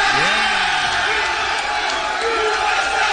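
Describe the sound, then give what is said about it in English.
Crowd cheering and going wild at a live broadcast, a loud, dense roar of whoops and yells with shouted voices swelling and dipping in pitch above the continuous din. “Crowd's going crazy.”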